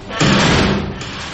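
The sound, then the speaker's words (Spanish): A heavy black door slams shut with a single loud, deep thud that rings briefly and then fades into a low rumble. “de repente la puerta negra se cerró, dando un portazo, como tragándose todo lo que contenía el lugar.”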